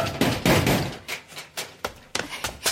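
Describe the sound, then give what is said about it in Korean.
Fists pound on an apartment front door at night, many sharp, irregular knocks and thumps arriving in uneven bursts. “이 밤중에 현관문 두드리는 사람이 그럼 제정신이에요?”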